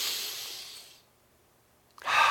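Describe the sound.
Deep breathing: a long, airy breath fades away over about a second, near silence follows, then another strong breath begins sharply at the end.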